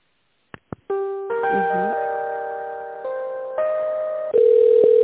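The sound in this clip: Telephone tones play while an office call is being transferred: a couple of sharp clicks, then sustained electronic tones that shift in pitch step by step and stay steady and fairly loud.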